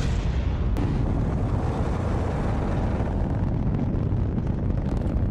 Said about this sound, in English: 9, 8, 7, 6, 5, 4, 3, 2, 1. MDS, we have ignition, we have a liftoff.